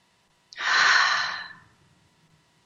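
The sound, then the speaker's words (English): A single deep breath: one long, airy rush of air that swells quickly, holds for about a second, then fades. It is fairly loud and stands alone, with near silence before and after. “So let's take another deep breath, everybody.”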